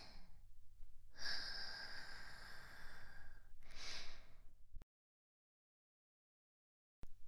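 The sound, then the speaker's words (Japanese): Slow, soft breathing in and out: a long airy breath drawn out over a couple of seconds, then a shorter exhale, followed by a stretch of silence. “さあ、息を吸って。吐いて。”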